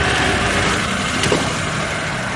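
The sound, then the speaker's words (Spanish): A luxury car pulling up and stopping in front of a doorway, its engine giving a steady low rumble that holds at an even level throughout. “Al poco Ramón detiene su lujoso coche frente a un portal en el que espera Javi.”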